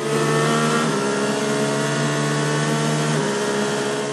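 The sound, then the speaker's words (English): Stick-shift car engine revving hard as it speeds away, a loud, sustained buzzing drone whose pitch steps down twice, constant in level throughout. “Take the stick shift and throw it into nitro as I drive away fast down the street because it's turbo mode.”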